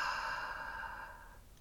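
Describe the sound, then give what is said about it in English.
One long, breathy exhale let out through the mouth after a deep inhale during a breathing exercise, soft and airy, gradually fading over about a second and a half. “Take in all the air that you can take in. Audible exhale, let it go through your mouth.”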